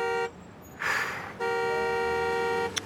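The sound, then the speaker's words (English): Car horns honking in a traffic jam: a short blast, then a burst of rushing noise, then a longer sustained honk, ending with a brief sharp click. “Caught in a traffic jam.”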